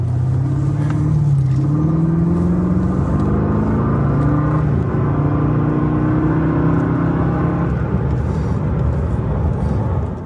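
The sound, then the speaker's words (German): Engine note of an Alpina Roadster V8: a continuous deep, throaty rumble with a shifting, slightly wavering pitch, loud and unbroken throughout with no voices over it. “Und wie der Alpina Roadster V8 so klingt, das hören wir uns jetzt auch mal kurz an.”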